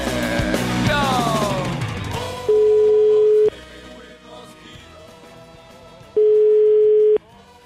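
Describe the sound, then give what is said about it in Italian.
Ringing tone of an outgoing telephone call: two long, steady, mid-pitched tones, each lasting about a second, separated by a pause of a few seconds, following a louder, mixed burst of sound at the start. “La telefonata è del Papa. Il Papa ha chiamato un fervente cattolico, il signor Magdi Cristiano Allam.”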